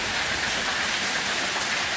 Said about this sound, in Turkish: Şiddetli yağış Tekirdağ ve Kırklareli'yi de etkisi altına aldı. Sağanak ve dolu caddelerde su birikintileri oluşturdu.